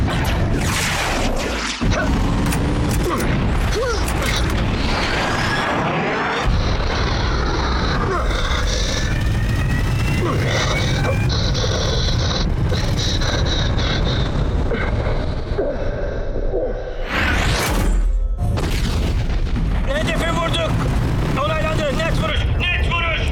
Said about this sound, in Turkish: Tamamdır, kilitlendim. Hedef belirlendi, bomba atıldı.